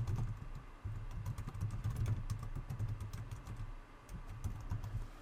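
Quiet, rapid clicking of keys as an email address is typed on a computer keyboard, an uneven patter of light taps over a low steady hum, with no talk.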